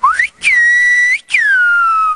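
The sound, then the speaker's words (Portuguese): A person whistling in silbo whistled language gives three loud, pure whistled notes: a short rising one, a long level tone that ends in an upward glide, and a long note that slides downward. “A estratégia é essa mesmo, ir assobiando com o ar.”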